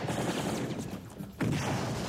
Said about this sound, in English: they return fire, heavy fire